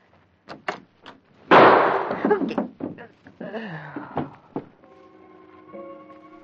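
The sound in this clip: A single gunshot goes off at the doorway of a home. The sharp, loud blast has a rough, decaying tail, and lighter clattering sounds and steady tones come before and after it.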